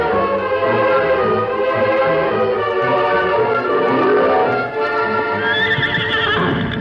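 Hooves clip-clop steadily as a horse carrying a rider approaches at sundown, and a loud whinny rises near the end over a dense, sustained tonal background.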